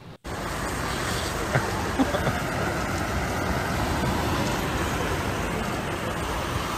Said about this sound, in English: Burning rubber. I don't know why you need to do this, but you can.